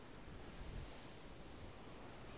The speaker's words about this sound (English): hold on to your hats as we brave the windy conditions and explore Toftgate Limekiln and the Coldstones Cut.